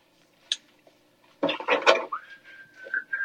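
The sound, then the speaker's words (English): Metal measuring spoons clink as they are put away while someone cooks in the dark: one brief clink, a pause, then a short cluster of rattling clatter. “Put my measuring spoons up.”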